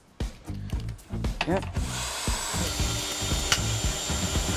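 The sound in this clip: A power drill drives screws into wooden boards, first in short whining bursts and then in a longer steady whir, with people talking over it.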